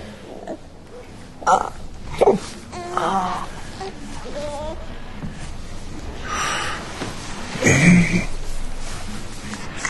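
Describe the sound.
A fussy baby whimpers and moans in short, fretful, uneven bursts, with a few louder wails rising above a soft, noisy background.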